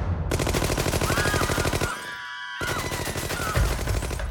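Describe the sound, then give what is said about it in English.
Rapid automatic gunfire from gunmen bursting into a restaurant: two long, loud, tightly spaced bursts of shots separated by a short pause, each crackling without a break. “four gunmen burst into the restaurant. They fired a volley of bullets”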